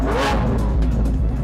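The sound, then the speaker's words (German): A 700-horsepower Lamborghini sports car engine revs in a brief, loud, continuous roar. “Ich nehme den Lamborghini. Und der macht mit 700 PS richtig Eindruck.”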